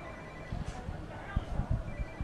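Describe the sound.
A telephone rings faintly amid a crowd, a thin tonal ring over a low bed of background bustle with scattered soft thumps.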